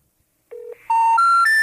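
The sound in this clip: Telephone keypad tones played over a speakerphone: a short low tone, then three longer steady beeps, each pitched higher than the last, with no voices.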